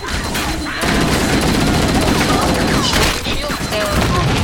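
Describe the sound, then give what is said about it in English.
Explosions and rapid gunfire fill a video game battle in a loud, dense, almost continuous barrage. “Oh, Master Chief exploded.”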